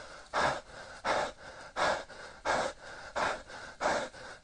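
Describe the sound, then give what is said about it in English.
Rhythmic panting, with six loud, airy breaths at an even pace and softer breathing between them. The breaths are heard alone, without talk. “stop fucking counting and pant with me.”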